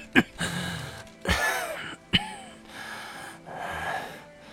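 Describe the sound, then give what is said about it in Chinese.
A person coughs three sharp times, with rasping, wheezy breaths between the coughs. The coughing settles into softer, heavy breathing toward the end. “海良一在咳嗽声里平静下去。”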